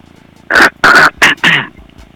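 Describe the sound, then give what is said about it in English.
Throat clearing by a person: four short, harsh, loud bursts in quick succession, the last one trailing off, with quiet between them. “Let me clear the throat.”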